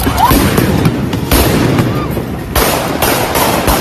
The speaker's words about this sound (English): They're shooting guns at him, real guns.